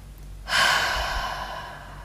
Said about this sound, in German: Mach gern einmal kurz deine Augen zu. Nimm einen tiefen Atemzug.